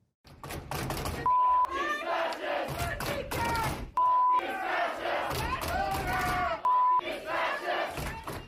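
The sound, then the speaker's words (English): Audience shouting at an anti child transition surgery event at the University of North Texas: a loud, dense crowd yelling and chanting in rhythmic bursts, interrupted by three steady censor beeps. “This is the audience at an anti child transition surgery event at University of North Texas, known as UNT, on Wednesday.”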